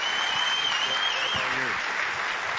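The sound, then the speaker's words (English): Applause from a church audience welcoming a guest speaker back home: dense, steady clapping that holds at an even level through the whole clip. “Give a warm welcome back home to Justin Marbury.”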